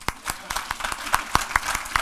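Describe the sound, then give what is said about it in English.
An audience claps in a steady, even rhythm, about ten sharp claps close together. “Let's clap for it.”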